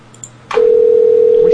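Telephone line tones during a call being placed: a few quick, high electronic beeps, then a loud, steady, mid-pitched tone that holds unbroken to the end.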